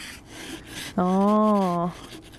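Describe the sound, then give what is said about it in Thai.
A hand scraper forced along a hard, stubborn layer to shave it off gives one sustained squeaking, rubbing tone about a second long, steady in pitch, set against a faint background. “ส่วนตรงนี้มันจะแข็งกว่าก็ใช้ขูดขูดขูดออกเนี่ย”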